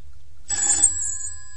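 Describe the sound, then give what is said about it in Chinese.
A telephone rings around midnight in a pawnshop. After a brief silence, one unbroken burst of bright, high electronic ringing starts and holds steady to the end, loud and alone with no voices. “有冇搞错啊？呢、這个时候仲有电话嚟？”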